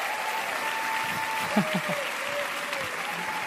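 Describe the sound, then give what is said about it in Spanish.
Applause from an audience welcoming two pastors onto a stage, a steady dense clatter of many clapping hands that runs throughout, with a voice briefly heard over it. “Un aplauso una vez más.”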